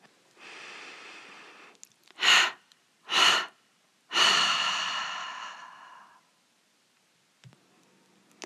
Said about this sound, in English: take a gentle inhalation through the nose and release it with a triple exhalation through the mouth